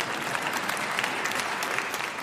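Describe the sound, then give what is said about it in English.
A church audience clapping during worship: dense, continuous applause with many overlapping hand claps, steady and moderately loud throughout the short clip. “But you can go ahead and clap.”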